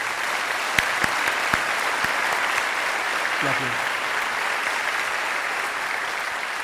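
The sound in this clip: Audience applause welcoming a speaker at a church gathering: dense, steady clapping from a crowd that holds for the whole stretch, with a few louder individual claps standing out.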